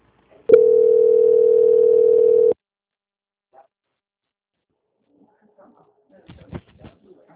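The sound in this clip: Steady telephone line tone while a call is being transferred, one even mid-pitched tone lasting about two seconds, followed by near silence and a few faint clicks and rustles.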